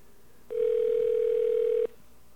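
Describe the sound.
Telephone tone while calling someone back after a dropped mobile call: one steady electronic tone lasting just over a second, starting and stopping cleanly over a quiet line.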